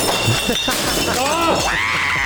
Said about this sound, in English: That was glass. Yeah, it was.